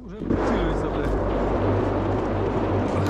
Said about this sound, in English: They're hunting us. If a drone sees you, it will start following you.